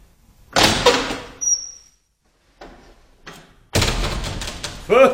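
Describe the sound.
A wooden door being opened produces bursts of rattling and scraping noise in two spells separated by a quiet pause, the second spell louder and longer.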